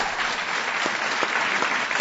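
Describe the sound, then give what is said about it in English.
Dense audience applause after a speech at an official event attended by government ministers and an ambassador: a continuous, fairly loud crackle of many hands clapping, steady throughout with no voices over it. “So many claps.”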